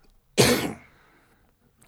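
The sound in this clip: A man coughs once with something caught in his throat. The cough is one loud, rough burst that fades within half a second and is followed by quiet, with no talking.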